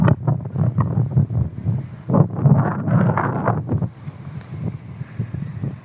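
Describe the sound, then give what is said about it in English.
Wind buffets a microphone outdoors in gusty, low rumbling bursts that swell through the middle and ease toward the end. “And then I'll have to deal with the wind, I guess.”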